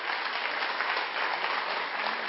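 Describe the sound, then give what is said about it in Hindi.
Audience applause for a cardiologist being introduced with his awards: an even, steady burst of clapping, moderately loud, fills the whole moment. “अच्छे से तालियां बजाएंगे।”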